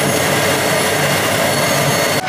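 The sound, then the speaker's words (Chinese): Steady, loud rumbling roar of a running generator set, heard through a listening rod held against the machine, continuous and even throughout before dropping slightly at the very end. “咱们的那个发电机组的那个声音好像是轰隆隆的水的声音”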